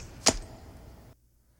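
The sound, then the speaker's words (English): A single sharp, bright impact rings out early as a knife is caught and strikes something, then fades into quiet. “It definitely sounded like a knife hitting something.”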